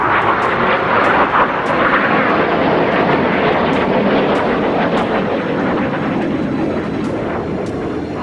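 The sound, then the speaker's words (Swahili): The loud, continuous roar of F-16 fighter jets flying low over Ankara, a dense, steady rush of engine noise with faint crackles that eases slightly toward the end. “Ndege za kivita aina ya F-16 zilizokuwa chini ya udhibiti wa wapanga mapinduzi zilianza kuruka kwa kimo cha chini juu ya anga la Ankara kwa lengo la kuatia hofu wananchi.”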